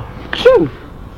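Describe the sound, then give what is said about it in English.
A big sneeze imitated by a human voice: a single short burst, a breathy lead-in followed by a loud voiced 'choo'. “if I give a big sneeze, the page will turn and that will get rid of all the pirates.”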